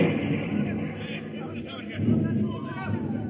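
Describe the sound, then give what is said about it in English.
Air raid bombing explosions: a low, heavy rumbling of blasts that swells again toward the end, heard under a babble of agitated voices. “Hey! Hey, it's an air raid. They bomb us.”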